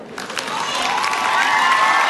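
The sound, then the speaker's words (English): A crowd cheering and shouting as the doors open at a JCPenney store opening after a ribbon cutting, a sustained roar of many voices that swells slightly and stays loud. “The doors finally open at 10 a.m. to an eagerly awaiting crowd.”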